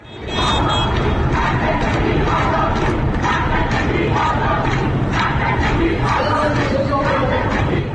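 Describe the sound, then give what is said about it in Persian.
Lawyers chant at a protest outside the Tehran Bar Association building, a loud, continuous crowd of massed voices shouting slogans in rough unison, sustained without a break. “این صدای وکلای دادگستری است. مقابل ساختمان کانون وکلای دادگستری مرکز در تهران در 20 مهر ماه 1401 در اعتراض به تعدی و تجاوز حکومت به حقوق و آزادی‌های”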